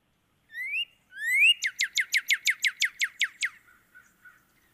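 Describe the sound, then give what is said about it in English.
A northern cardinal sings two separate rising, slurred whistles, then a fast run of many sharp, down-slurred notes that fade into a few faint trailing chirps, clear against silence. “let's hear the northern cardinal”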